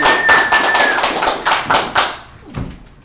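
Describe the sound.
Audience clapping at a live show in Miami: a run of rhythmic, evenly spaced claps that thins out and fades toward the end.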